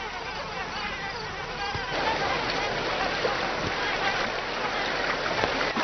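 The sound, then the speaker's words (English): Buzzing of biting insects in summer heat forms a steady, continuous hiss-like drone with dense, fluttering texture throughout, holding an even loudness with a few faint ticks scattered in. “Biting insects now become a draining nuisance.”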